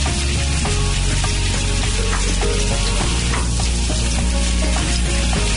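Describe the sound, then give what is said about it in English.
Curry leaves, crushed garlic and split green chilies sizzle loudly in hot oil in a pan, a dense, steady crackling hiss with no pause and no talk. “Add curry leaves, crushed garlic and split green chilies.”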